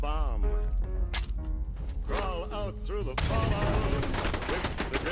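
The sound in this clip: Heavy .50-caliber machine gun fire in a video game erupts as a dense, continuous burst in the second half, after voices and tonal game sounds fill the opening seconds.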